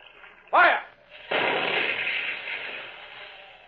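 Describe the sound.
A submarine fires in a radio drama and scores a direct hit: a sharp burst, then a loud roaring explosion that slowly fades.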